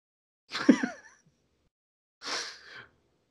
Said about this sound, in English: Sorry, guys, I really am sorry. I got this cough that won't fucking quit.